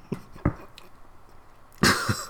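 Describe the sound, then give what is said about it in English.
A person clears a throat full of gunk after a big swallow of tea: a few faint low clicks and rasps, then one loud, harsh clearing burst near the end. “Just had to do a big swallow of tea there. Throat full of gunk.”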